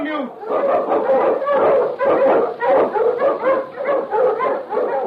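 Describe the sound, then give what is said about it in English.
A Malamute sled dog barks and yelps in a rapid, unbroken run, the loud, excited calls of an Eskimo lead dog crowding together for several seconds. “Malamute! The Wonder Dog King, swiftest and strongest of Eskimo lead dogs, blazes the trail through storm and snow for Sergeant Preston as he meets the Challenge of the Yukon.”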